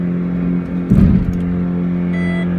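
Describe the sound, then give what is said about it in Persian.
A car engine runs on its own, speeding up with no pedal pressed, a loud, steady humming drone with a brief rougher surge partway through before settling back. “دور موتور ماشین همینطور زیاد و زیاد و زیادتر میشه، با این که پاهای من نه روی گاز هست و نه روی کلاچ.”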